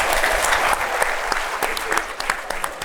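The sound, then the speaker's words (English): Audience applause for Miami's mayor at an F1 event, a dense, steady wash of clapping from a crowd that holds throughout. “Give it up for Francis Suarez, your mayor.”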